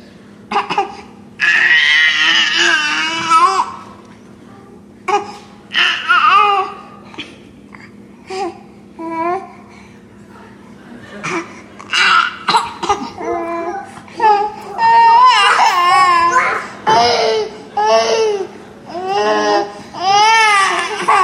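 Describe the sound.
Two babies cry and fuss over one pacifier, with whiny wails and babbling in repeated loud bursts, some short and some drawn out, continuing throughout.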